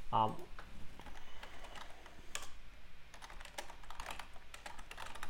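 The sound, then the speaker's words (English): Fingers type a search query on a computer keyboard, giving a quick run of irregular, crisp clicks and taps. A voice is briefly heard at the start. “So let's just type in Bonita Springs Plumber.”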